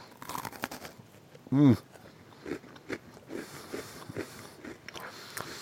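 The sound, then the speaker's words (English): Crunchy biting as lemon Oreo (golden cookie) and mint chocolate chip Oreo (chocolate cookie) are bitten together: one loud, short crunch, then a few fainter chewing and crunching sounds. “I'm going to take a bite of each at the same time. So this is going to be a lemon mint chocolate chip with one, I forgot to mention, the lemon Oreo has a golden cookie, and the mint chocolate chip has the normal chocolate cookie.”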